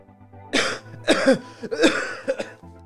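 Several harsh coughs and throat clearing from someone with something caught in their throat, loud rough bursts with short gaps between them.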